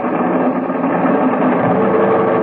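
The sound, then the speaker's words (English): Aircraft engines roaring at full power for takeoff, throttles wide open at maximum manifold pressure: a loud, dense, continuous drone that holds steady in pitch and volume, with no voices over it. “All set for the takeoff, sir. All right, give me every last inch of manifold pressure. Those engines will take without burning up.”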